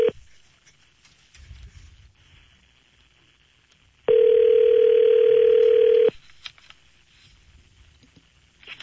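A telephone call to an automated service rings through after dialing: one steady two-second electronic ring tone over faint line hiss, with a short blip at the very start.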